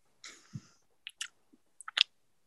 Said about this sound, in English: Not the mouth noises, not the dreaded mouth noises!